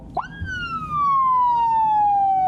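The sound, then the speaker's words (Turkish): A police car siren switched on by remote control: one quick upward whoop, then a single long, loud wail that slowly glides down in pitch. “Elinde siren kumandası vardı. Kural ihlali yapanları da uyarmayı ihmal etmedi.”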